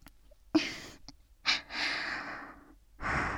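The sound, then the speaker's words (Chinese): Rapid, heavy breathing comes in a few loud bursts: sharp gasping inhales alternate with longer rushing breaths, with brief quiet gaps between them and no talk. “呼吸真的好急促啊。”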